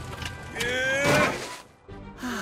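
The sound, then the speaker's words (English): Aircraft flight doors opening: a mechanical whoosh and rumble swells and fades while whining tones glide upward, followed by a quieter thud. “Yeah, this is your captain speaking. The flight doors are now open.”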